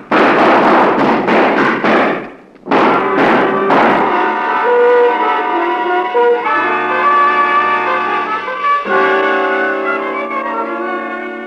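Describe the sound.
Gunshots in a radio crime drama: a rapid burst of sharp, loud cracks, a brief gap, then another quick volley, before a sustained music cue takes over.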